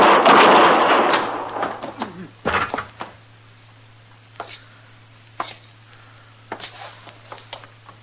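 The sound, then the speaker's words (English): Gunshots ring out as a U.S. marshal in the Old West guns down two men: a loud blast that rolls away at the start, another sharp crack shortly after, then a few faint knocks. “You killed both of them, Mr. Dillon. I didn't even get a shot off.”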